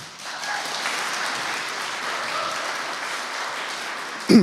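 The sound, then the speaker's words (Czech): Audience applause for a student's exam success: moderate, steady clapping swells in quickly and holds evenly, and then a single voice starts speaking right at the end. “já děkuji za tento potlesk, ale myslím, že nebyl dostatečně intenzivní.”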